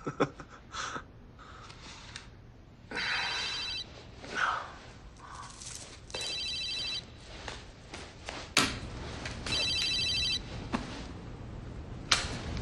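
A mobile phone rings in three separate electronic bursts of trilling tone, moderately loud, with other scattered sounds between the rings.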